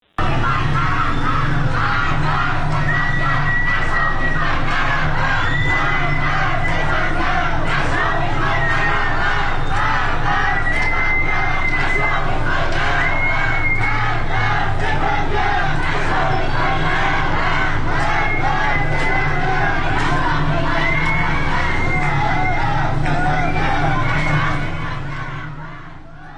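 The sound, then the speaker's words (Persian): A large crowd of protesters in Jamalzadeh Street, Tehran, shouts loudly and without a break. The voices merge into a dense roar that fades out at the very end. “در خیابان جمال‌زاده تهران معترضین زیادی رو شاهد بودیم. بشنویم با هم صدای ویدیویی که از این خیابون به دستمون رسیده.”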